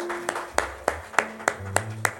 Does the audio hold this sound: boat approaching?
no